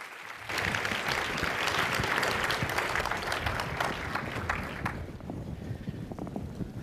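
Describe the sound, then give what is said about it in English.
Audience applause welcomes a panel host to the stage at a conference. Dense, loud clapping holds steady for about five seconds, then thins and fades. “So please bring your hands together and help me in welcoming Leah Weiss to the stage.”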